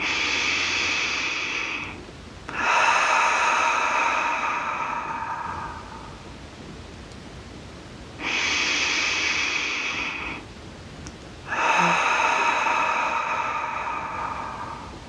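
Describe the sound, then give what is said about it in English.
Slow, deep breaths drawn in through the nose and let out through the mouth during a guided meditation. Each is a long, soft rush of air, with short quiet gaps between them and no talking. “start by taking a few nice deep breaths in through the nose, out through the mouth.”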